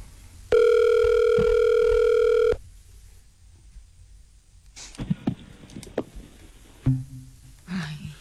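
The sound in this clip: Telephone line sounds from a call to a contestant in a phone-in contest that is answered and then hung up: a loud, steady, buzzing tone for about two seconds, a pause, then several clicks and short bleeps.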